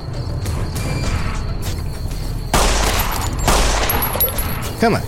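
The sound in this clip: Gunfire from a pistol in the video game Fallout: New Vegas, a few loud, sharp shots cracking out in bursts amid game sounds.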